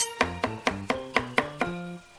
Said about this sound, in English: pass me the carrots. Carrots coming right up, dear. Careful chopping them now.